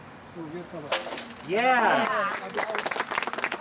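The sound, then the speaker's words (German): A glass bottle smashes against a lighthouse at its christening, one sharp crash, then a voice cheers loudly and a crowd breaks into steady clapping with some talk mixed in. “Flasche kaputt und Leuchtturm heil. Yes. Super, so soll es sein.”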